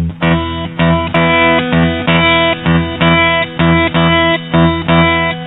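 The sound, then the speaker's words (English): Electric guitar playing a blues shuffle in E, with the pick and a finger plucking the open top E string together in a loud, steady, repeating rhythm of bright notes throughout, with no talk. “Now, with one of the fingers of my picking hand, could be the second finger or the third finger, I'm going to play the open top E string. It'll sound like this.”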